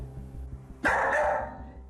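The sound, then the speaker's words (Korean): A dog barks excitedly while left alone at home and keeps barking until its owners return. A single loud, sharp bark bursts out mid-clip and rings on briefly over a low, steady hum. “이러고 계속 짖는 거예요? 네네네. 저희 올 때까지 계속 이러고 짖어요.”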